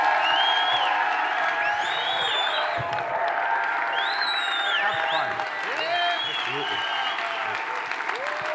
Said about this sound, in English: give them the most rowdy, obnoxious welcome. And so I'm going to invite you, would you please stand to your feet, and would you welcome Randall Worley to the stage today?